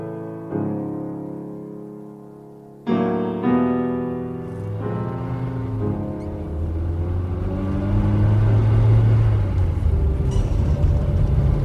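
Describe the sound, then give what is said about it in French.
A car engine runs as the car drives off, a low rumbling drone with steady tonal hum that jumps up sharply early on and then grows fuller and rougher as it keeps going. “Nous prendrons ma voiture. Alors allons-y.”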